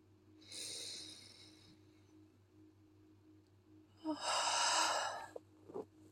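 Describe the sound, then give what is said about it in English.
A deep breath in and a slow breath out: two soft, breathy rushes separated by a quiet pause, the second louder and followed by a couple of short clicks. “I'm going to breathe in deeply.”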